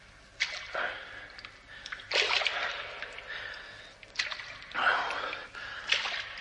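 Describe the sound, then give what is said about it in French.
Slow footsteps wading through sticky, foul mud and water in a dark, narrow passage: several wet, squelching splashes arrive at an uneven, laboured pace with quiet gaps between them. “Voilà des heures que je marche dans cette boue immonde.”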